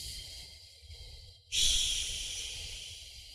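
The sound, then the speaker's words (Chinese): A slow exhale through an open mouth during a breathing exercise: a soft breath, then a long, steady, breathy hiss that starts abruptly and fades gradually. “然后张开口，再进行缓慢的呼气，呼的时候越慢越好，长呼”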